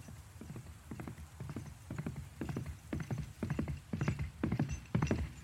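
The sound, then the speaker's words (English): Hoofbeats of an approaching horse rider, a steady clip-clop rhythm of many hoof strikes that grows gradually louder. “Luckily, she was snapped out of this internal spiraling by the sound of a rider's approach.”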